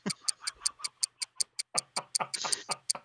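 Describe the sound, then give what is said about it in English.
A clock ticks in a quick, even rhythm: many sharp, bright clicks, each with a faint lower knock beneath it, going on steadily at a fairly low level. “is that ticking? I hear it is ticking.”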